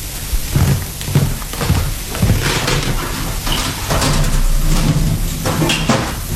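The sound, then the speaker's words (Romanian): Heavy grinding and scraping as the entrance to catacombs is opened, a long, loud, rough rumble with uneven bursts that continues for several seconds without talk. “Un moment, ca să deschid intrarea spre catacombe.”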